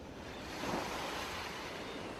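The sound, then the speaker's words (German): Ocean waves breaking on a shore produce a steady, broad rushing wash. A slight swell builds early on, then the sound evens out into continuous surf with no voices. “Du hörst das Rauschen der Wellen”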